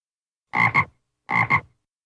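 A frog croaks in two loud bursts, each made of two quick croaks run together, with silence before, between and after.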